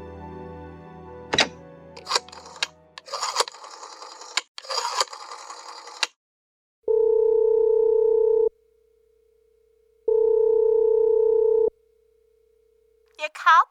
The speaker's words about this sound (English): I've been dialing Murray Hill 70093 now for the last 3/4 of an hour, and the line is always busy. I don't see how it could be busy that long.